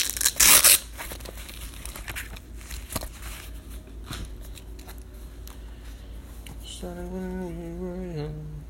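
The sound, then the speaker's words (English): A paper notepad being handled: a short, loud tearing crinkle at the start, then quieter rustling and scattered light taps of paper. “let me get my notepad and start writing this down before I forget.”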